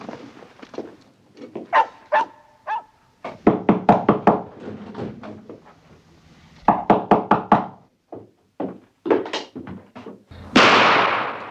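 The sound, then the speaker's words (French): Knocking on a door comes in several loud volleys of rapid, sharp raps separated by short pauses, ending with a brief burst of broad noise. “c'est les coups dans la porte !”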